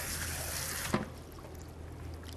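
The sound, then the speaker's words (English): Running tap water in a sink for a final rinse: a faint, steady watery hiss that drops to a quieter trickle after about a second. “And I'm gonna give it one last rinse.”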